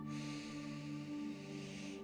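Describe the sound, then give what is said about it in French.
A deep inhale through the nose, as in a guided breathing exercise: a soft, steady airy rush lasting about two seconds over quiet, sustained low tones. “Vous pouvez prendre une grande inspire par le nez,”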